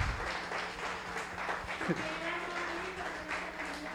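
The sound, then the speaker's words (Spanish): A church audience applauds during a worship service to celebrate a member's birthday, a soft, continuous patter of many hands that runs throughout, with voices beneath it. “¿Cuántos dan un aplauso a Dios porque cumple?”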